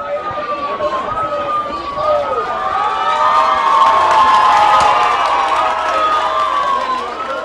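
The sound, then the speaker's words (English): A crowd celebrates at the Valencia, Venezuela home of baseball catcher Wilson Ramos, with loud continuous cheering and shouting and shrill sweeping whistle-like tones rising over the roar. “This was the sound at the Ramos home in Valencia, Venezuela, when he returned there late last night.”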